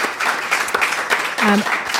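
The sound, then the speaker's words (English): An audience applauding thanks to a chemist and staff, with dense, steady clapping and a brief voice rising above it midway. “Let's give him a round of applause anyway to David Walsh, chemist, and all of the staff.”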